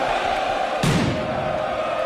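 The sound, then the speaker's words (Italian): Inter Milan fans celebrating a title win in Milan's Piazza Duomo: a continuous roar of crowd noise with a sustained horn-like tone running through it and one sharp bang partway through. “E al triplice fischio sono partiti i festeggiamenti della Milano Nerazzurra che hanno avuto il loro epicentro in Piazza Duomo. L'inviato. La passione dei tifosi cresce col passare dei minuti, fragorosa.”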